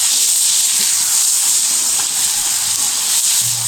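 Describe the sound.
Food left unstirred to brown in oil in a pan gives a loud, steady, bright sizzle that hisses evenly throughout without pause.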